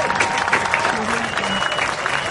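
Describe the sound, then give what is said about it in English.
An audience applauds after a speech about health, food and living conditions in Nigeria: steady, dense clapping runs throughout at an even level, with crowd voices mixed in. “Woo, let's give her a big round of applause.”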